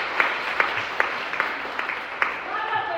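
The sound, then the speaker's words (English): Applause breaks out at an AAPI poetry evening: a few sharp, scattered claps ring out over a steady crowd murmur, with voices talking through it. “celebrating AAPI poetry, right? Put your hands together.”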